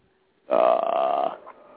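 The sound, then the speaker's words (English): A single loud, low, throaty burp lasting just under a second, trailing off into a faint tail. “It wasn't me. It was a frog. Yeah, I mean, he even blames burping on frogs now.”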